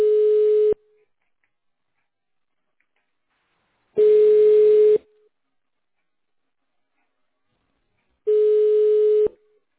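Telephone busy tone after a dropped call: three steady, mid-pitched beeps, each roughly a second long, separated by long silent gaps, with no voices.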